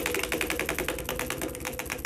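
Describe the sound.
A prize wheel spinning: a fast, steady run of many even clicks over a constant noisy background, with no voices.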